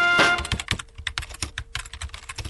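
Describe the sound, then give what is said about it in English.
Fast typing on a computer keyboard, many quick, irregular key clicks in a busy clatter broken by short pauses, with no voices. “Hey, what are you doing, man? Writing a review of WLP 400.”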